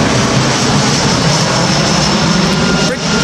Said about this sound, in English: this is the sound of someone's back garden in Breechwood Green in Hertfordshire, which is on the flight path to the airport. It's pretty noisy, isn't it?